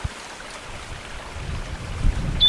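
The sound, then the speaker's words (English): Wind buffets a microphone outdoors, a low, rough rumble that is faint at first and grows stronger toward the end. “Very windy.”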